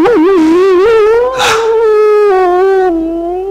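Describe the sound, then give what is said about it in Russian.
Wolves howling: a long, loud, sustained tonal wail whose pitch holds fairly steady with a slight waver, broken by a brief breathy burst midway, before the call tapers off. “Волки. Что? Теперь конец. От волков не уйдешь.”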